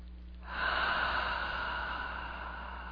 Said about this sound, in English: Deep breath, please.